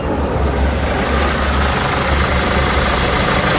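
A car engine runs steadily while driving, a loud continuous low-pitched drone with a slight rumbling pulse and no talk over it.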